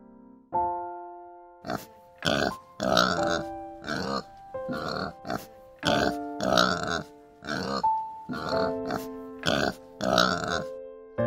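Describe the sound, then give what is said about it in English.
A donkey braying in a long run of many rhythmic, harsh honking bursts, loud and raspy, with short gaps between them. “Donkey.”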